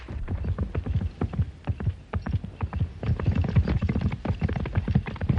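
Hooves of a cavalry company's horses clip-clopping as the mounted troop sets off at a walk, many crisp hoof strikes overlapping in a steady, uneven rhythm throughout.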